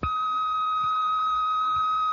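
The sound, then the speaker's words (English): An answering machine tone sounds before a message is recorded: a single steady electronic beep holds one bright pitch for the whole two seconds. “For your convenience, AnswerX will take your message. After the tone, just leave your name, phone number, and a brief message.”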